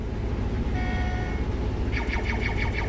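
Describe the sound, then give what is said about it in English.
Steady, loud engine rumble of a combine harvester driving itself in a field, a dense continuous low drone with a faint whining tone partway through and warbling higher tones near the end. “Right now, the combine's driving itself.”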